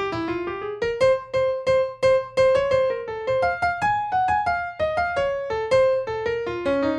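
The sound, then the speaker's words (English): Piano playing a fast jazz phrase in sixteenth notes: a long run of quick, cleanly struck melodic notes that move up and down in an even, rapid rhythm. The piano plays alone, with no talk. “You're going to have to kind of forgive my piano playing because I'm not quite as fast on piano as Lee Morgan is on trumpet, but it's something like this.”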